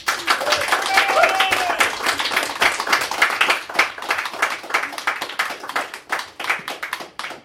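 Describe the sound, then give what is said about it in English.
An audience at a Bristol Con Fringe reading event claps to welcome an author to the stage, a steady patter of many hands that thins slightly toward the end. “can we have a very warm welcome, please, for Mr. Jo Lindsay Walton.”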